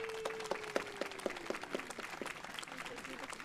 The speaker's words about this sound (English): Please put your hands together and welcome Pastor Garrett Kloppenhauer.